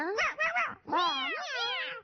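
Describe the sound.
Cats meowing in a wavering run of calls: a few short rising-and-falling mews, then a longer, louder yowl that bends up and down for over a second.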